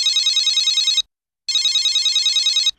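Telephone ringing: two bursts of rapid, high, warbling electronic trill, each about a second long, with a short silent gap between them. Moderately loud, with no voices.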